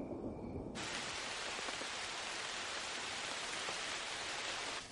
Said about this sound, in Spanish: Se acerca una tempestad. Llueve torrencialmente.